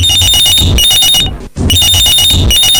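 A telephone rings in two long, loud trilling bursts separated by a brief gap, with a steady electronic warble and no voices over it.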